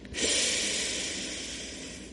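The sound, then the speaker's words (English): A soft nasal exhale through the right nostril with the left side closed during a breathing exercise, an airy hiss that starts abruptly, holds steady and slowly tapers over about two seconds. “close the left side and breathe out through your right side”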